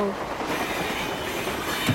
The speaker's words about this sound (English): You make those trains go any faster and they won't stay on the track.